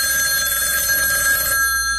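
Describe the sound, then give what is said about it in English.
A telephone rings in a home as a family sits around the dining table: a continuous, bright, steady ringing that holds at an even level for the whole two seconds. “we were all laughing and telling stories when the phone rang.”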